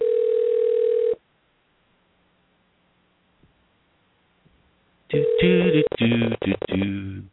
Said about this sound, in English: we're going to try making the call now in the old-fashioned way that we used to do it, on the air. This way I can hear if he's on.